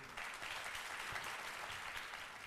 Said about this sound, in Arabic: والآن إلى السفراء والسفيرات، السفيرات والسفراء، تعالوا نتعرف عليهم بتصفيق عارم من الجمهور.